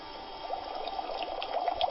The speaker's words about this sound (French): Le sorcier Fifion a donné à Germain Batomé un peu de sang de bouc séché qu'il laisse tomber dans l'eau bouillante. L'œuf bout bientôt.